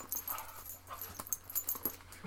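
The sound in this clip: A dog whimpers and chews, making quiet, irregular bursts of high whines and mouth noises that come in quick succession.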